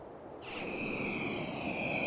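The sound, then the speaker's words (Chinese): A reconnaissance spaceship slowly landing: a steady, rushing roar that grows slightly after half a second, when high shimmering whine tones enter and hold to the end. “在距离赛小西他们千米左右的地方。一艘欧比组织的侦察飞船正在缓缓降落”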